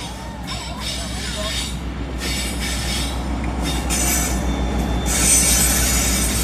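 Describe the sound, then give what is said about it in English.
Train passing on rails, its wheels squealing high and shrill over a continuous heavy rumble that swells louder toward the end. “Choo choo. Choo choo. Now we've even included our train spotters amongst us.”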